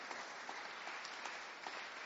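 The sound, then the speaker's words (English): Steady applause from a church audience giving a round of applause, a dense continuous wash of clapping at an even level for about two seconds with no voices over it. “why don't we give them a round of applause?”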